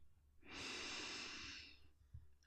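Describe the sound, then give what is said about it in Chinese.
One slow, deep breath drawn in through the nose during a guided breathing exercise, soft and airy, swelling and holding for about a second and a half before fading. “我们来一个深呼吸，Breathe in，”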